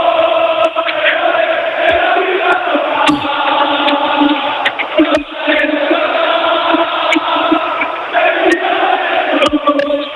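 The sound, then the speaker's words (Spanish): Football fans roar and cheer as they celebrate their club's promotion back to the top division after eight years, with players still on the pitch jumping with them; a loud, dense crowd din holds steady throughout, pierced by scattered sharper shouts. “Y este es el sonido de la afición del Málaga, porque están todavía todos los jugadores aquí, saltando, celebrando que el Málaga jugara en Primera División 8 años después. Así suena la afición del Málaga.”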